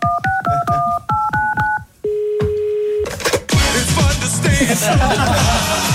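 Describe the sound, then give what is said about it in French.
Telephone number being dialed from a studio control room, heard as a quick run of paired keypad beeps, then a steady held tone, then a louder burst of dense, noisy sound. “on compose le numéro en régie.”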